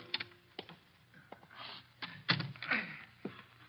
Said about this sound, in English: Oh, blasted lock is jammed.